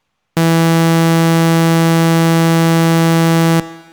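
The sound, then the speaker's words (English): A synthesizer sawtooth wave tone plays as a single buzzy, bright, unchanging pitch rich in overtones. It starts abruptly, holds steady and loud for about three seconds, then cuts off. “A more jagged wave is called a sawtooth wave.”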